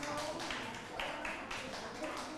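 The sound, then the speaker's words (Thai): Students clapping for a group in a classroom, a steady patter of many hands that continues throughout with slight swells. “ปรบมือให้กลุ่มที่5และปรบมือให้กับทุกๆกลุ่มเลยค่ะ”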